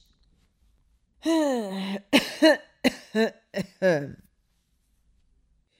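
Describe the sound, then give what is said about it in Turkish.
An old man's coughing, voiced by a person imitating it: a drawn-out throaty groan, then a quick string of short, harsh coughs, loud and alone with no other talk. “İhtiyar adam sözlerinin burasında biraz duraklamış. Arka arkaya birkaç defa öksürdükten sonra sözlerine şöyle devam”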